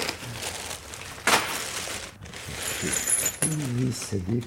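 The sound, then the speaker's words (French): Mechanical clatter, crinkling and ratchet-like clicks come from a broken cinema seat being replaced in a 200-seat theatre, a string of quiet irregular knocks and scrapes, with a voice talking near the end. “Ben là, je remplace un fauteuil qui est cassé.”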